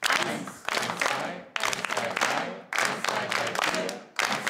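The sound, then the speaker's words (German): A group claps together in rhythm during a rhythm exercise, producing dense runs of sharp claps in a few repeating phrases separated by brief pauses. “Die Gruppe soll in dieser Rhythmusübung gemeinsam im Takt klatschen. Dafür müssen sie die Abfolge erstmal herausfinden.”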